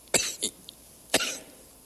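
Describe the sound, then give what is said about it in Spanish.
Three short, faint coughs from a person who has suddenly started coughing, with a brief pause after the first two and a sharper final cough, heard alone without talk. “de repente sentí la tos y antes venía muy bien”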